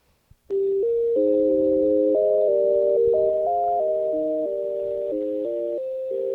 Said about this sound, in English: Listen to that hold music.